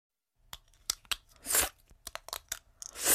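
Plastic clicks and crackles as an Invisalign aligner is taken out of the mouth: a quick, irregular run of sharp snaps mixed with a few longer rustling bursts, fairly faint, with no talking.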